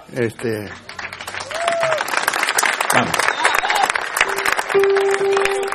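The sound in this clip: Dense audience applause at a live book-signing appearance, a steady, loud wash of many hands clapping that lasts throughout, with a voice briefly heard at the start and partway through.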